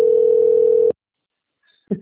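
A single long, steady, low-pitched ringing tone on a telephone line lasting about a second. Silence follows, then a brief click.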